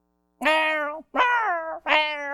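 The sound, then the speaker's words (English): A cat meows to be fed, giving three loud, drawn-out meows in quick succession, each about half a second long, with short gaps between them and nothing else heard. “What does that cat want? That cat wants me to go feed him.”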